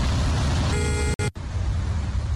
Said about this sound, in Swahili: Magari kadhaa pia yameishiwa mafuta. Traffic jam kama lote. Magari hayasogei.